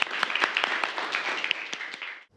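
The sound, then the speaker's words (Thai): An audience applauds after a group presentation with dense, overlapping hand claps. The clapping holds a steady level and then stops abruptly at the end. “ปรบมือ”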